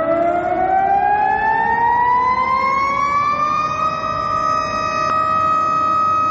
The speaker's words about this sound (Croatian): Tačno 12 sati u gradu su se oglasile sirene i održane minut ćutanja za ubijene i prognane, javlja Zoran Glavonjić